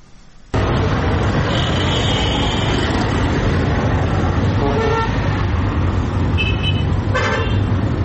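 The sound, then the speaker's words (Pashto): Traffic rumble and car horns at a busy passenger bus station in Quetta, Pakistan: a steady, loud roar of engines runs throughout, with a few short honks cutting through near the middle and end. “دا په کوټه کې د مسافرونکو بسونو یو لوی اډه ده”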